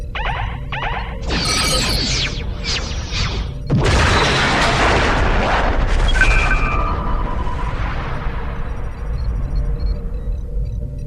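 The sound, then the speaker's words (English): A starship fires quantum torpedoes in a space combat video game: a few sharp bursts, then a heavy boom, a high whine and a long, rumbling decay. “Firing quantum torpedoes.”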